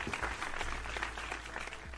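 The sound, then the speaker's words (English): Applause for a guest on a call-in show, a steady wash of clapping at moderate level over a low hum. “Round of applause for Scandinavia.”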